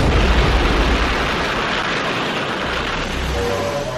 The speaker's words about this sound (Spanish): en un campo de pruebas nucleares en Nevada, Estados Unidos, se detona desde una torre la bomba atómica.